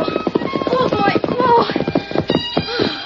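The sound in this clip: Pony hooves clip-clop in a gallop, a rapid, steady run of sharp hoofbeats that carries through the whole stretch while people talk over it.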